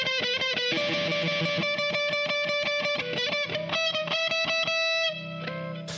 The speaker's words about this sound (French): On va mettre la guitare de l'album. Comme ça.